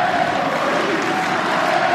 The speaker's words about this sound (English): This is a bit better from the crowd. They're just trying to rouse him a little bit.